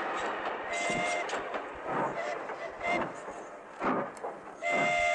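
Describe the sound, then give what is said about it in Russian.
A work train starts to move with loud rumbling and rushing noise, broken by irregular clanks and knocks that continue throughout. “Поезд трогается.”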